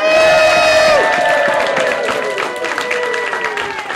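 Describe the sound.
Audience applause and cheering at the 2014 Kids Comics Revolution Awards at the Ann Arbor District Library. Loud, continuous clapping mixes with high shouts and whoops that gradually ease off.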